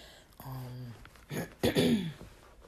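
Throat clearing: a short voiced hum followed by a couple of rough, raspy bursts, moderately loud and heard alone without talk.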